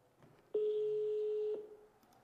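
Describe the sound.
A phone call rings out with a single steady electronic ring tone lasting about a second, clear against a quiet background.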